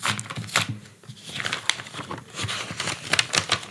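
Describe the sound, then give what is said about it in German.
Paper crinkles and tears as a sealed envelope holding a photograph is ripped open by hand. Irregular rustling bursts and crackles come fairly quietly, with no voices. “Und ich würde dich einmal bitten, das auszupacken. Darfst du es einfach aufreißen? Zugeklebt sogar, ganz geheimnisvoll.”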